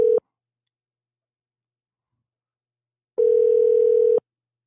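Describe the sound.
A telephone call to a hotel extension is dialed. A brief electronic tone cuts off, then about three seconds of silence pass before a steady, level tone sounds alone for roughly one second.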